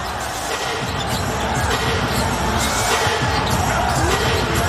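A basketball bounces during a three-point shot attempt, its quick dribbling thuds set in continuous, loud crowd noise.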